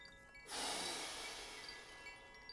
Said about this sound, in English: When you're ready, powerfully exhale it out into the room.